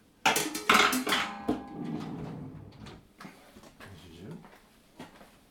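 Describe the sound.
A pan being handled while cooking, with a burst of sharp metallic clanks and clatter at the start, then softer scattered knocks, as someone talks.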